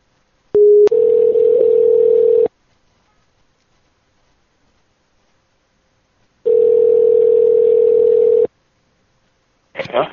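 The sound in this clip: Telephone line tone, sounding while someone calls a person back: two long, steady, loud humming tones, each about two seconds, separated by a few seconds of silence, with a brief burst of sound at the very end.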